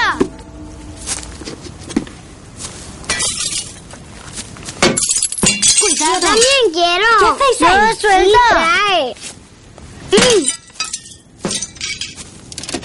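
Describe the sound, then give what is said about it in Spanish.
Glass clinks and shatters as children break already broken window panes in an abandoned house, with scattered sharp crashes and tinkling fragments, followed by loud voices. “Los hermanos obedecen y dejan de romper cristales rotos de unas ventanas para ir a sentarse en un banco junto a Liesel.”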